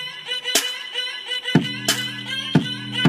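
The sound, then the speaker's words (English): A simple synthetic beat with bass and drums added: a sustained electronic tone is punctuated by a few sharp drum hits, and a low bass layer comes in partway through. “Add bass and drums, it just sounds like this.”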